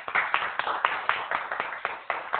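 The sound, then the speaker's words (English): Applause from an audience at a presentation as a speaker is introduced. A run of quick, separate claps, moderately loud and somewhat muffled, continues with no voices. “Give George Clayton a round of applause”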